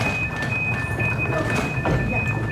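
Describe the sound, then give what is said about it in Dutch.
A FLIRT train stands at a station platform, where its automatically extending step bridges the gap. Two high, steady electronic tones sound over a continuous mechanical hum and rumble at an even, fairly loud level throughout. “want deze trein is een flirttrein. En die heeft een automatisch uitschuifbaar treeplankje om het gat tussen het perron en de trein te overbruggen.”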